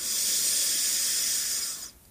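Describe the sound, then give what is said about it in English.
A slow, deep inhale through the nose during a belly-breathing exercise gives a steady, airy hiss that lasts about two seconds and then stops abruptly, with no talk. “So as we're breathing in, I want you to try and fill up your belly as much as you possibly can while relaxing your shoulders through the nose. Inhale.”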